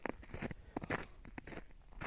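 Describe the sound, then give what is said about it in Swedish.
Crunching footsteps on snow during a walk through a forest at minus three degrees: a faint, steady series of soft crisp crunches with small rustles between steps. “Idag är det kallt. Det är -3 grader. Och det är snö. Och jag går i skogen.”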